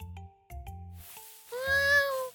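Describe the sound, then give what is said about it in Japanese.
A stray cat gives one long, drawn-out meow that rises and falls slightly in pitch, heard clearly over soft, steady background tones. “おや、猫ちゃんです。”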